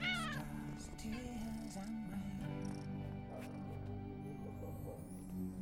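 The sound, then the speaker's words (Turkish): A ginger cat meows, opening with a clear falling cry and followed by fainter meow-like sounds over a steady tonal background, all quite quiet. “Bu sırada yanına gelen sarı kedi yılışarak Timo'nun bacaklarına sürünüyor.”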